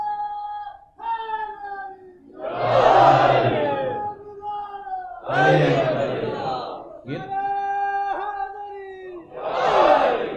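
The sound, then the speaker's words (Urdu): A crowd at a Shia religious gathering chants a religious slogan in call and response. A single voice calls out, and loud massed voices answer in three bursts. “سب نعرہ نہیں لگاتے کیا؟ ماشاء اللہ،”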